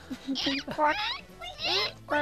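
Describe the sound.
A human voice imitates a platypus with a few squeaky, chirping bursts that sweep up and down in pitch, separated by short pauses.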